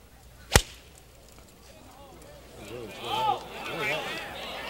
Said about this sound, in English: Make the swing that you are capable of making, stay down, accelerate through the ball, make a good golf swing.